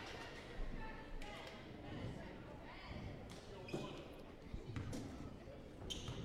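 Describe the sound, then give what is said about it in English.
A basketball is dribbled a few times on a court before a free throw, the second shot of a one-and-one in a women's game involving Altoona and Bloomer, with dull thumps under a commentator's steady talk. “Dribbles the basketball a few times, now goes up for the second shot and makes it nice and easily in.”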